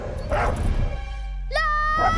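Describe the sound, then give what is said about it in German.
A German shepherd dog chasing people across grass gives a brief, high yelp that rises sharply in pitch, following a stretch of muffled noise over a steady low rumble. “Ein Schäferhund liegt im Gras. Er sieht zu ihnen. Der Hund jagt auf sie zu.”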